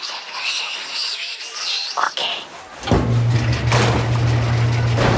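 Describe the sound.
Someone tumbles inside a turning metal drum: a brief clunk, then a steady low mechanical hum and rumble that continues evenly to the end.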